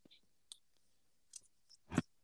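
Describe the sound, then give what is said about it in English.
Tarot cards being flicked give a few soft, sharp clicks separated by quiet gaps, with the last one the loudest. The sounds are faint overall, with no talking. “flick flick. yep. That's the sound my cards make.”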